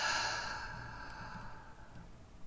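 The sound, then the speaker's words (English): A slow, soft breath through the nose, heard alone. It is quiet and breathy and fades gradually, like a calm exhale. “Breathe in. Breathe out.”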